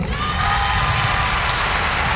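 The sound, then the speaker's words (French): Concert audience applauding and cheering for the musicians and backing choir, a dense, steady roar of clapping and crowd noise that holds constant throughout. “Je voudrais également que l'on applaudisse ceux qui m'accompagnent depuis déjà de nombreuses années et que j'ai toujours plaisir à retrouver, que ce soit à Paris ou en tournée ou ailleurs mes musiciens et choristes”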